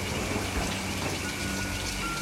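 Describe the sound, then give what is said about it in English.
Heavy rain lashing down over a field: a dense, steady hiss of rainfall that fills the whole stretch without any break. “As the rain lashes down, Cecil takes cover in a field.”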